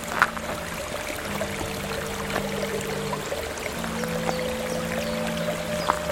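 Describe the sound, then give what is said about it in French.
Meltwater trickles and drips down a river gorge in a mountain massif, a soft, steady wash of water with faint scattered drips over a low constant hum, with no voices. “L'eau qui dégouline”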